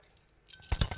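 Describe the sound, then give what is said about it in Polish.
A little bell jingles in a short, bright burst that starts abruptly after near silence, with a few rapid repeated strikes ringing loudly until the end. “Dzwoneczek jest od młodego człowieka z Wrocławia.”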